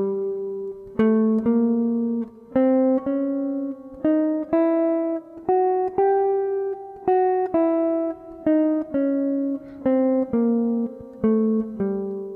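Whole-half diminished scale played as separate notes on a pitched instrument, starting on G and moving in alternating whole and half steps. Many evenly spaced, clear notes climb steadily, then step back down, played alone in a regular rhythm.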